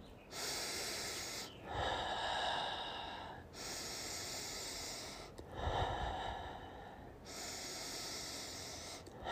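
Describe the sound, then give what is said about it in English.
Slow, deep human breathing: a few long, airy inhales and exhales in steady alternation, each lasting about two seconds, with no talk. “So I just trick myself, just take 10 breaths right now.”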